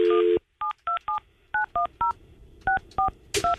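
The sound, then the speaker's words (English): Touch-tone dialing of a phone number with a leading 1 and a 727 area code through a phone switchboard. A longer opening tone is followed by nine short, evenly loud beeps in irregular groups, ending with a brief click. “I guess I must first dial a 1. It's a 727. Why do I have to dial a 1?”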